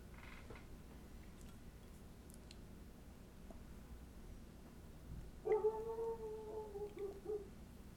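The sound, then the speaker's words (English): Dogs barking outside: a faint, drawn-out, whining call of about two seconds rises over a steady low background hiss after a long stretch of quiet. No one talks. “Sorry, we got dogs barking outside.”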